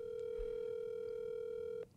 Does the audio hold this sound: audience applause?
no